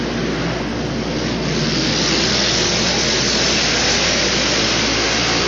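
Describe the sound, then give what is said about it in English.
Racing lawn mower engines roaring around a race track under a green flag: a dense, loud, unbroken drone of many motors blended together, steady throughout with no pauses. “two of the mowers tangled, but everybody's underway. Green flag flies, and we've got a race on our hands. Lap number two underway.”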